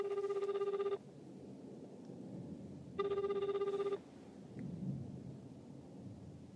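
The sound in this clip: Telephone ringing: two electronic ring bursts of about one second each, two seconds apart, over a steady low rumbling background.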